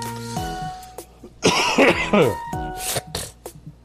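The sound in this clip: Thick, chunky coughing: a harsh, loud burst of coughs followed by a couple of shorter ones, with a voice speaking just before.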